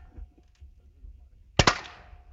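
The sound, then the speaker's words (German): A gunshot is fired at a target bird during a shooting contest: one sharp, loud crack with a brief ringing decay, breaking a quiet, low background. “Und jetzt kommt nochmal der nächste Schuss.”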